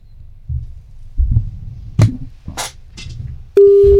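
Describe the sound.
A busy signal answers a phone call attempt. A loud, steady beep begins near the end, after a few faint, low clicks and handling noise.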